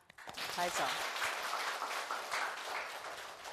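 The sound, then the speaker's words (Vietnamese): A group applauds a participant after a clothes-folding demonstration at a kindergarten teaching session. A brief voice is heard as the clapping begins, and the fairly soft clapping continues steadily throughout. “Chúng ta vỗ tay cho bạn.”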